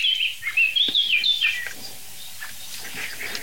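A nervous blackbird gives a quick series of high, thin chirping calls that sweep up and down in pitch. The calls fade after a second or two, leaving faint rustling background.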